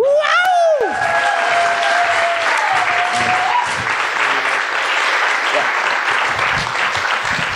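Loud, dense applause from a crowd, sustained at full strength from start to finish. A brief swooping tone sounds at the very start.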